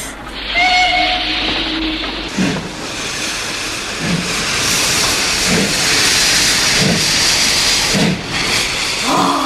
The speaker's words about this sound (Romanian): De ce nu pleacă odată trenul ăsta?